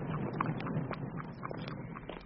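Hooves of a horse pulling a hired trap from Leatherhead Station across a park, clip-clopping in a steady, even rhythm of light, sharp knocks over a continuous hiss.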